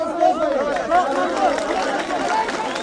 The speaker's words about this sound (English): What you're hearing now is how Ismailis greet their religious leader. Mansoor Nadiri passes through the throngs, his hands raised in a kind of blessing, and his followers reach a near hysteric pitch,